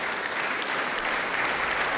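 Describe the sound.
Concert audience applauding Romanian musicians after a performance at the Leoš Janáček International Music Festival, a dense, even wash of clapping that carries on unbroken.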